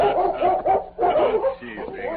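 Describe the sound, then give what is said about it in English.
A large German shepherd barking a welcome at a ranch: a few quick, rough, mid-pitched barks in close succession, loud and alone. “As Tonto dismounted, the Colonel's dog, a large German shepherd named Chief, circled Scout, barking a welcome.”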